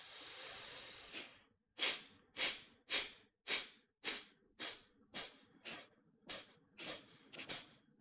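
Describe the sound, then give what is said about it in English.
Hard, forceful exhalations during a breathing exercise: a long steady breath, then about a dozen sharp, rhythmic puffs of air at a fast, even pace, loud and alone with no talk. “we're going to do 15 hard exhalations. And you'll kind of feel that recoil of the inhalation afterward and try to push it out again.”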